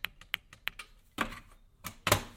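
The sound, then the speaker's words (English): An intercom button beside an apartment entry door is clicked: a few quick, sharp clicks, then three louder, rougher clacks, all fairly faint. “To the right is the intercom. Hello, and if you click it, it goes,”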